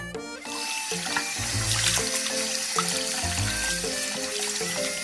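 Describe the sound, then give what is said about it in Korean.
Hobak sweet potatoes are washed under a running kitchen tap, a steady, moderately loud gush of water splashing into the sink with small irregular spatters throughout. “호박 고구마를 깨끗하게 씻어 껍질째 준비한다.”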